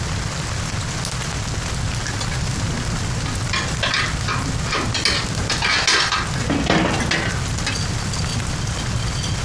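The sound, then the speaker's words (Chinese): A stove is stoked in a cold room, giving a steady rushing crackle with bursts of scraping and rattling around the middle. “屋里是挺冷的，我把炉子再凑暖和一点。”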